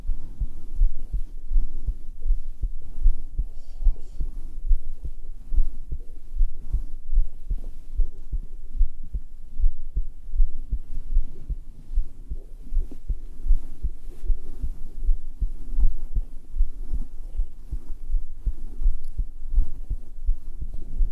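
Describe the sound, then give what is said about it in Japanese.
Heartbeat recorded through a binaural microphone pressed against bare skin: a long run of muffled, low thumps in a steady rhythm, with a faint throbbing hum underneath and no talking. “心音激しいのがいいの？”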